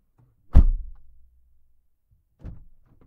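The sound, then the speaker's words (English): Car door slam heard from inside the car: one heavy, low thud that decays quickly, followed by a softer second thump after a pause. “Car door slam, interior.”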